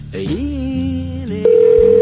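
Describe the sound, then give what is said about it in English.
A telephone rings with a steady, rapidly pulsing electronic tone that starts abruptly partway through. A brief warbling, gliding sound comes before it. “Something to do while the phone's ringing.”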